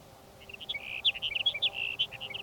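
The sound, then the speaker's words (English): Sage sparrow song: a quick run of many high, thin chirps and twittering notes in an uneven rhythm. The notes are fairly faint over a low, steady background hum. “Your sage sparrow number three for the morning.”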